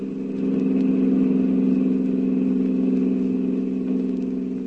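Engine of a taxi cab driving off fast: a loud, steady, mid-pitched motor drone that holds an even level throughout, with no voices.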